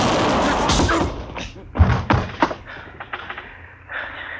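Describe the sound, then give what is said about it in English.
A gun fires into the floor during a struggle over the weapon: a dull, heavy boom followed by a few scattered thuds and knocks, loud and without speech. “I held his arm so he couldn't get his gun up. It went off right in the floor there.”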